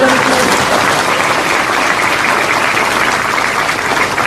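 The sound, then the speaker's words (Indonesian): Loud crowd applause, a dense and even roar of many hands clapping that keeps going without a break from start to finish. “Nah, ini tepuk tangan sing banter”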